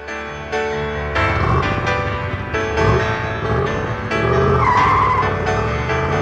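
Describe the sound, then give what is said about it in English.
Tires skid and squeal over a revving car motor, a band member's car used as a stock motor sound, loud and sustained for about six seconds with no pause. “Yeah, it's like everyone now uses that as the stock motor sound.”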